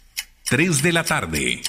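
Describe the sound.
Clock ticking from a watch and jewellery shop's advertisement that announces the time: a crisp tick before and after a strong, tonal voice that fills most of the stretch.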